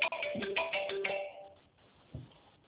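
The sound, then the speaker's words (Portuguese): A mobile phone ringtone sounds for an incoming call: a brief, bright melodic phrase of quick tones that stops after about a second, leaving faint line hiss and a soft bump. “Quer que eu ligo no seu celular para ver se está certo? Espera aí que eu vou ligar no seu celular.”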